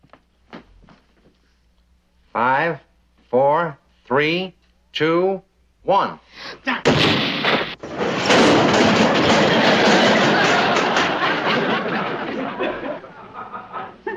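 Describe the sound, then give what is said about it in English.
A bomb bursts against a safe, a loud broad roaring hiss that sets in abruptly after a few short spoken words and holds for several seconds before easing slightly. “Now, the bomb is perfectly harmless, but the impact will open anything.”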